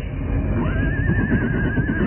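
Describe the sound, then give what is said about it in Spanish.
A horse gives a single neigh, a high call that rises quickly and then holds with a shaky, wavering pitch for over a second, over a loud, rough rumbling background. “juntos avanzaron hacia donde el caballo esperaba.”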